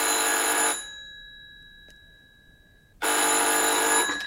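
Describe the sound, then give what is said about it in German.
A telephone bell rings twice, each burst loud and bright with a sustained ringing tone. The first ring ends early and its tone fades out through a quiet gap of about two seconds before the second ring starts abruptly. “Gleich klingelt draußen das Telefon.”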